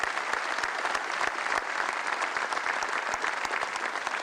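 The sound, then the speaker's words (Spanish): Audience applause at a public speech event: dense, steady clapping from many hands that holds at an even level for the whole stretch, with sharp individual claps standing out and no talking. “Un aplauso.”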